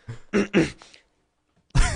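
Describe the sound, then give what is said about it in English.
A person clears their throat frantically: several rapid, rough, harsh bursts, then a short silence before another loud, gravelly burst. “It's a very frantic throat clear. I needed to get my throat cleared and I needed it cleared right away.”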